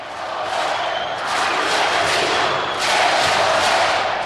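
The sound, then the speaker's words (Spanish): Crowd in a basketball arena chanting for an unsportsmanlike foul after a player's push: a loud, sustained massed roar of many voices that swells twice. “El público canta antideportiva SOE, cuando aquí no se reclama una antideportiva, sino una técnica.”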